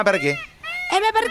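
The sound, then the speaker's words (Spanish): Peacock calling, a quick series of loud, nasal, wailing honks with strong harmonics, each cry brief and rising, uttered back to back without other voices. “¿Sabés por qué abre la cola este famoso pavo real que suena así?”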